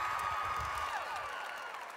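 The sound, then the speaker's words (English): Applause from an audience welcoming two guests from Ireland, a faint, steady patter of clapping that eases slightly toward the end. “Come on, let's give it up for these two from Ireland here.”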